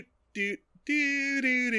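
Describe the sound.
A voice imitates a TV show's general-purpose background theme tune, singing wordless doo syllables: a short note, a brief pause, then a longer run of sustained, steady notes.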